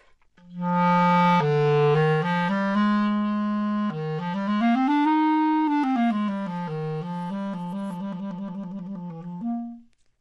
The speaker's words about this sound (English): So while you would hear in a more of a classical setting, the clarinet in the lower register would sound like that.